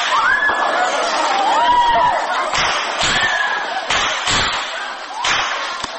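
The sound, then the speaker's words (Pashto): Gunfire and screams recorded during the Kabul University attack: several sharp cracks of shots break through high, wavering screams of students and a constant background of crowd noise. “دا د هغو ډزو غږونه او د محصلانو چیغې دي چې پر کابل پوهنتون د برید پر مهال ثبت شوي.”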